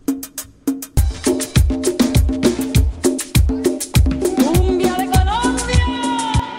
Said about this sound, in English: The music is called cumbia.